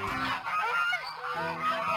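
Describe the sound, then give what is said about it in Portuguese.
Loud honking from a group of old, noisy geese heading toward a fair: harsh, nasal calls that overlap and repeat through the whole moment, with no voices among them. “Dirigiam-se para lá velhos gansos muito bem engravatados, de plumagem imponente e todos muito barulhentos”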